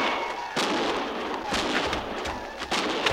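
Gunfire across a canyon: a few sharp, booming cracks punch through a constant rushing, crackling background noise, spaced irregularly over a few seconds.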